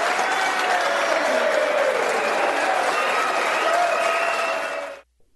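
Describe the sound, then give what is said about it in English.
A studio audience at a political debate on Brexit applauding, a loud, steady wash of dense clapping with crowd voices underneath, cut off abruptly near the end. “Just listen to that studio audience.”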